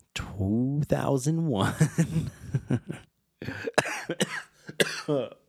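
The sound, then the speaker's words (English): A choking cough after a laugh: voiced, chuckling bursts give way, after a brief silence, to several harsh, sputtering coughs of uneven rhythm. “excuse me, I choked on my laugh”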